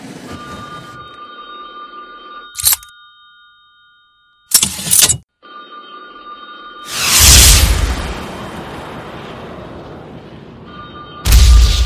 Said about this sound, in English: I just got a new M72 66mm anti-tank LAW rocket launcher.